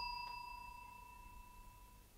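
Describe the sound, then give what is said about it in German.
One faint ding from a bell with a clapper prone to sticking, a clear sustained tone with bright overtones that rings on and slowly fades, alone in quiet. “Glocke. Das hat nichts zu sagen. Der Klöppel wird sich wieder festgeklemmt haben. Die kleinste Erschütterung genügt.”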